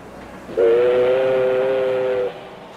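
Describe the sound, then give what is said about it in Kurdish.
A train whistle sounds as a train departs toward the mountains: one steady, sustained tone of moderate pitch that holds for under two seconds, then stops, with no voices. “ئێستا شەمەندەفەرەکەی هایدی دەست بە ڕۆشتن دەکات”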